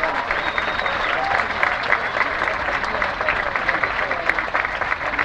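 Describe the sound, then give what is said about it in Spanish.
Steady, dense applause from a large crowd of friends, family and neighbors at a community celebration in Santa Rosa, loud and sustained throughout, with crowd noise and voices mixed in. “Les pido un aplauso para todos ustedes.”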